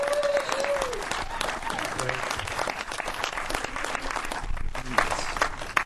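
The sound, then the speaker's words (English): Crowd applause welcomes the Warren Haynes Christmas Jam back to Asheville. Dense, steady clapping is loud and continuous throughout, with a brief whistle near the start. “Put your hands together if you are excited to welcome the Warren Haynes Christmas Jam back to Asheville.”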